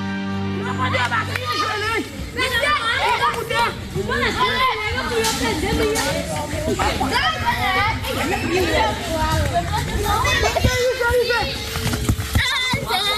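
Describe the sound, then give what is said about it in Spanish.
Children, boys and girls, playing football in Haiti fill the air with constant shouting, squealing and chatter from many young voices, a lively unbroken din throughout. “Este es el sonido más puro del fútbol. Son niños y niñas jugando en Haití, el país más pobre de América que vuelve un mundial después de 52 años.”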